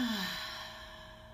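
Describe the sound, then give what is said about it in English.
A single deep breath, a soft breathy rush of air that fades gradually over about a second, taken in through the nose and let out through the mouth. “Let's breathe in through our nose and exhale through our mouth. So breathe in and out.”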